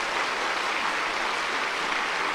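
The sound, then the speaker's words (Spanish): An audience applauding its pastors at a church gathering, an even, continuous wash of many hands clapping at moderate loudness with no break and no voices over it. “¡Aplauso para nuestros pastores!”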